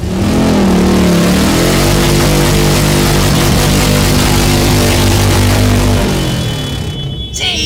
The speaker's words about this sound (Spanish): ¡Somos los chicos malos de las motos negras!